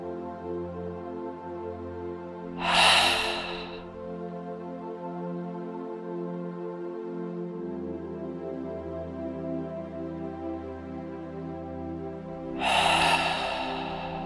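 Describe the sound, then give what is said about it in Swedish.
Deep breaths drawn in through the nose and let out through the mouth: two breathy rushes about ten seconds apart over a steady, sustained tonal backdrop. “3 djupa andetag. In genom näsan och ut genom munnen.”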